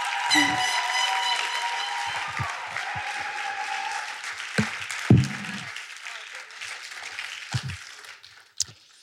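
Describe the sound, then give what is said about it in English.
Audience applause for graduating students at a ceremony: loud, dense clapping at the start that thins and dies away within a few seconds, followed by scattered sounds and voices. “Congratulations for making it this far. Let's give a hand to our 4 years and how far we've come.”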